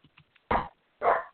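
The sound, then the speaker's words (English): Excited dog barking: two loud, sharp barks a half second apart, preceded by a few faint small sounds. “pardon the dog's excitement in the background”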